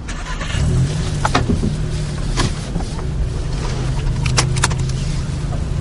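A car engine starts and the vehicle pulls away, giving a steady, loud rumble of running engine and road noise, with a few sharp clicks and knocks scattered through it.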